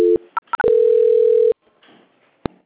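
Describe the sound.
Telephone tones during a call transfer: a short low tone, a few quick higher beeps, then a steady low tone held for about a second, followed by faint line hiss and a single click.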